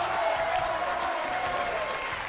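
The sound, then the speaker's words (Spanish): Spectators in the stands applaud and cheer on the Instituto Velázquez de Móstoles school team in a final stretch, a dense, even clatter of clapping that fills the whole moment. “Así que el Instituto Velázquez de Móstoles, vamos a esa recta final, podéis aplaudir, animarles.”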